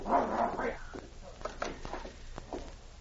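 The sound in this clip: A dog gives a few short barks and yips mixed with whimpering. The sounds are fairly faint, and a voice is heard near the start.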